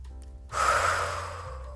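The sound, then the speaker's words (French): A person takes a deep breath in: a single long, airy inhale that starts abruptly, then fades gradually over about a second, over a faint low hum. “Si par exemple vous prenez une grande inspiration”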